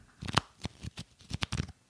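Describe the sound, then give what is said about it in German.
A stack of wrestling trading cards is handled, giving several quick, crisp papery flicks and riffles. They are soft and irregular, with no voices. “Ich habe sogar hier liegen, Achtung, das ist der Sound von Wrestling-Sammelkarten.”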